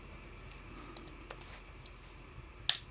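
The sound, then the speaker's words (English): Typing on a computer keyboard as a search is entered: a run of faint, irregular keystroke clicks, ending with one sharper, louder click. “Let's type that in.”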